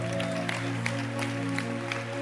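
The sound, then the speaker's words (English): Audience clapping at a spirited gathering, a dense, steady patter that runs through the whole stretch, laid over a sustained, humming musical tone that holds underneath. “Keep clapping.”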